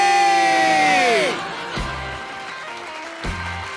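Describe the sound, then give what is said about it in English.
A studio audience cheers and whoops in a sustained, even roar of crowd noise that carries on without a break. “The audience and I, we're trapped here. It's a personal hell. They've been clapping for days on end,”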